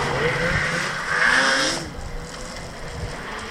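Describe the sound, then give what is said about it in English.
Snowmobiles drive past: a steady, loud engine drone that swells to a peak midway and then eases off, still running at the end. “I'll just let them go by if that's okay. How many snowmobiles was that?”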